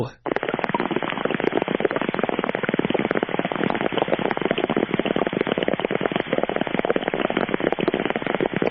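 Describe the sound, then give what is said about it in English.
Bomb explosion sound effect: a loud, dense barrage of rapid crackling bursts that runs evenly for about eight seconds, with a thin, band-limited tone. “Take me out with a bomb”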